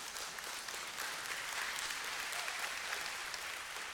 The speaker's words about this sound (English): that was like that slow wave of clapping. Like it starts on one side of the room and it's slow.